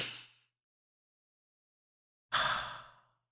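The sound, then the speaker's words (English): Breaths taken by a person on request: one airy breath trailing off at the start, then after a silent pause a single clear, breathy, unvoiced exhale lasting under a second. “Take a breath for me. Take a breath for me.”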